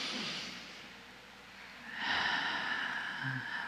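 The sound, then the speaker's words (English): A deep breath drawn in during a guided group breathing exercise. The inhale is soft and airy, swelling into a longer, fuller rush of air. “take a breath, everybody, and let's just fill up”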